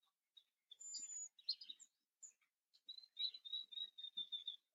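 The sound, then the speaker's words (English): A small bird chirps faintly while feeding her babies. Scattered short, high calls come first, then a quick run of repeated chirping notes near the end. “I think I keep talking and this little birdie is just trying to feed her babies.”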